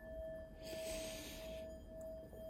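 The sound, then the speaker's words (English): A slow, deep inhalation during a guided eyes-closed relaxation exercise, a soft airy rush lasting about a second above a steady faint hum. “take a nice deep breath in,”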